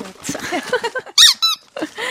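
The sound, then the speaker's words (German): A plastic squeaky dog toy ball squeaks loudly in many quick squeezes, the high, bright squeals coming in uneven bursts with short pauses between them. “Wenn es quietscht, findet das mein Hund auch immer ganz spannend. So ein Quietschboulet aus Plastik.”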